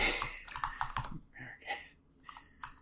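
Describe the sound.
Typing on a computer keyboard: many quick, uneven key clicks in a dense run that thins toward the end, with no talk.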